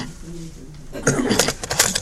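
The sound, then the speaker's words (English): A cassette tape is turned over in a recorder, with rattling plastic clicks and clatter in the second half following brief quiet talk. “All right, let me just turn this tape over.”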